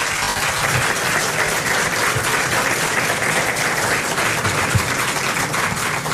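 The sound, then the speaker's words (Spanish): Sustained applause from an audience at a formal ceremony on tourism and historic restoration: an even, steady roar of clapping lasting about six seconds, with a single slightly louder moment near the end. “un aplauso muy merecido”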